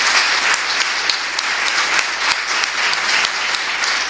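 Dense, steady applause from an audience honoring students of a polytechnic institute on an important day, with many hands clapping at an even, loud level that holds throughout without voices.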